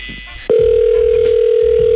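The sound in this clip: A telephone dial tone after the caller hangs up, a single steady hum at one pitch that cuts in abruptly after a moment of faint noise and holds, unchanging, to the end.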